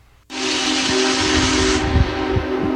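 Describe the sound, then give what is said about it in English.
The steam whistle of the nation's largest steam engine, on an anniversary tour past the Letchworth Gorge, bursts in abruptly after a quiet moment as one long, loud, sustained blast edged with hissing steam. “after a dramatic pass over the Letchworth Gorge and Genesee River this afternoon, the nation's largest steam engine is headed south now on a 250th anniversary tour of America.”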